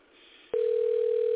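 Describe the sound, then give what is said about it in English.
Telephone line tone as a call is dialed and connects: a soft hiss gives way suddenly to a loud, steady single-pitched tone that holds unbroken to the end. “let me call him up. Says dialing.”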